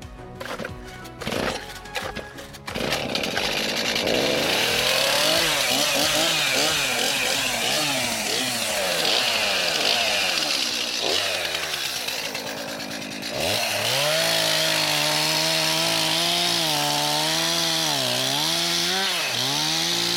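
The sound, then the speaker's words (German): A freshly sharpened chainsaw cuts through wood with a loud, continuous engine whine whose pitch wavers and dips as the blade bites. It follows a brief, uneven start. “ich schärfe jetzt mal flott durch und dann starten wir gleich mit dem Absägen.”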